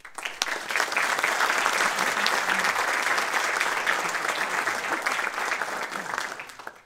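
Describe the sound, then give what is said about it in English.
Audience applause welcoming a lecturer at a historical society lecture: dense, steady clapping from a crowd, held at full strength for several seconds before fading out at the end. “Please join me in giving a warm welcome to Al Zambon.”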